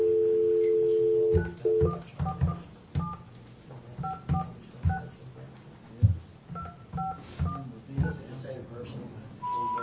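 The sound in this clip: Telephone keypad dialing tones from a call that fails to go through. Many short two-note beeps come in quick uneven bursts after one longer tone, with a voice faintly underneath.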